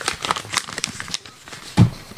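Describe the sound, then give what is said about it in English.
Paper crinkling and rustling as cards and letters are handled, with irregular crackly shuffles and one sharper, louder rustle near the end. “we received your cards and letters in the mail, and I have them in my hand right now.”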